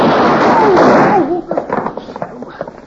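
Six-gun gunshots ring out in a Wild West showdown in an old radio drama. A loud, sustained burst of blasts mixed with whining tones gives way to scattered sharper pops that trail off.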